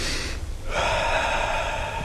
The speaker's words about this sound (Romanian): Ia, respira adânc. Încă o dată.